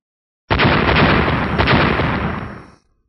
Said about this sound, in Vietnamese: Một hồi âm thanh nổ đùng đoàn vang lên giữa không trung